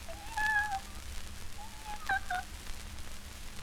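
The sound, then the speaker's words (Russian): Kitten meowing: two short, high, thin meows with a wavering tone, separated by a brief pause, over a faint low hum. “мяу да мяу. Вот какой глупый котенок.”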